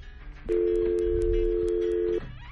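A telephone dial tone sounds on a call-in line: a steady, unbroken tone at constant pitch that starts abruptly, holds for under two seconds at even loudness, then cuts off, with no talk over it.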